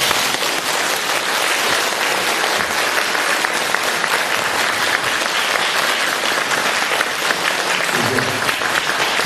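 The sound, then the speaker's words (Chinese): Audience applause after the close of a speech: dense, steady clapping from a crowd, loud and unbroken for about nine seconds. “你看看看，人不多，但是我听这个掌声就是几千人的掌声。”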